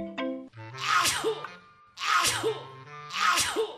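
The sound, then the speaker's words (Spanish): A person with a heavy cold sneezes three times in quick succession. Each loud, breathy burst is preceded by a short voiced intake of breath. “¡Menudo constipado que tengo, niño! Pues si no, es que te pones, te lías a estornudar”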